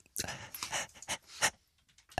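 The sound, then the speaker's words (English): A person pants in short breathy bursts, several quick uneven exhalations that are fairly faint and separated by brief pauses, with no speech. “What was the breathing bit? You were panting again there.”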